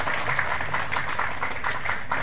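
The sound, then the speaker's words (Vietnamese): Audience applause welcoming a Buddhist lecturer at a Pháp Hoa temple gathering, a steady, dense wash of clapping that holds at an even level from start to finish. “Xin quý vị hoan hỷ cho một tràng pháo tay thật dài, thật lớn để chúng ta cùng hân hoan chào đón Đại Đức Giảng Sư.”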